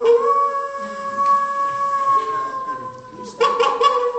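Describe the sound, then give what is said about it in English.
A man's voice imitates a howling dog: one long, steady tonal howl that holds for about three seconds, breaks off briefly, then comes back strongly. “I need a smart fellow to make all the sounds, who can, like a dog, and”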